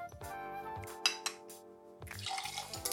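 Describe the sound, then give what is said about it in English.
A spoon clinks against ice in a glass while a Bloody Mary of ice and vodka is stirred, giving a few sharp, bright chinks over a soft swirl of liquid at a fairly low level. “Give that a stir.”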